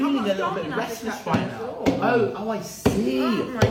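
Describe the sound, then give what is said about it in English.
A knife hacks through a pineapple with axe-like blows, giving a few sharp chopping thuds that punctuate continuous talk. “He's handling it like an axe. He's axing a pineapple”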